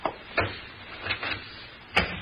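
A door closed carefully after being unlocked with a skeleton key to get into an office: a few soft, muffled knocks and scrapes, ending in a sharper latch click.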